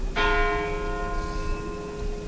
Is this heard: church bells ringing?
yes